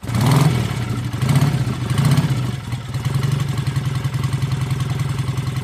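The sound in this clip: Motorcycle engine revving as a ride begins: a loud, continuous low rumble that swells with a few revs in the first two seconds, then settles into an even, throbbing drone.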